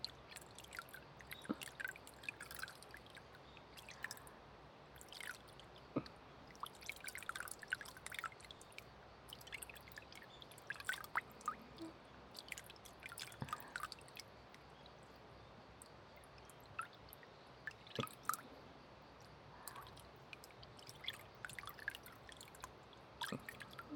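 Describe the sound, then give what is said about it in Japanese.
Water runs over hands being rinsed at a temperature meant not to strip the skin's oils, a faint, steady trickle broken by scattered small drips and splashes. “手の油分を流しすぎない温度で流していきます。”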